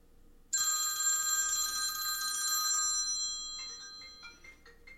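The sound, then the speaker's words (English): A telephone bell rings out abruptly after a quiet start, a bright, sustained trilling ring that then breaks into weaker, choppy bursts and fades toward the end. “See, that other phone starts ringing, it turns off.”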